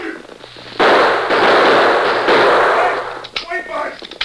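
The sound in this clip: Gunfire in a radio drama shootout, a dense, loud burst of noisy shots lasting about two seconds, then a few scattered cracks as voices break in.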